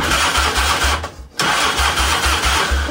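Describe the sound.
A car engine cranks but fails to start, the starter churning in a fast, low rhythmic pulse, pausing briefly, then grinding on again without catching.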